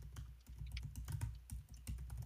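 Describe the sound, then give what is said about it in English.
Typing on a computer keyboard, a faint, quick clatter of many keystrokes in uneven bursts with brief pauses. “As as we type away here, Detroit.”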